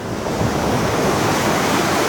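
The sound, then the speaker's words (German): Sea waves crash with great force against thick concrete breakwater blocks along a promenade, making a loud, dense and unbroken roar of surf. No separate crashes stand out and no voices are heard. “desto stärker wird das Schauspiel der Wellen. Nach etwa 400 Metern krachen sie mit gewaltiger Kraft gegen die dicken Betonsteine, die als Wellenbrecher an der Promenade montiert wurden.”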